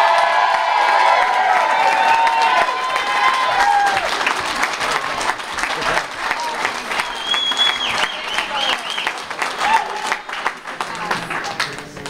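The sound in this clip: Audience applause and cheering for a family member of the speaker, loud at first with whistles and whoops, then easing into lighter, scattered clapping.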